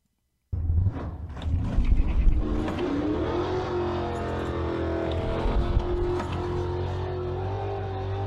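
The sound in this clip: A 1969 Camaro with a four-speed roars off in a first-round race at Palm Beach. The engine bursts in after a moment of silence, its pitch climbing over the first seconds before settling into a loud, steady drone.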